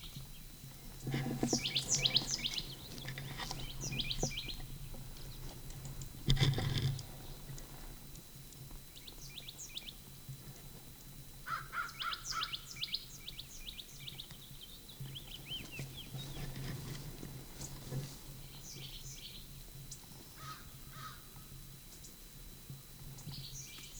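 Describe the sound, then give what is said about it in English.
Faint bird chirps and calls in a gulch come in scattered bursts, some as quick trills, over a steady background hiss with light patter. “Upper Gulch bird.”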